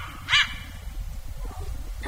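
A single short, sharp dog bark near the start, clearly louder than the steady low rumbling background that continues for the rest of the two seconds.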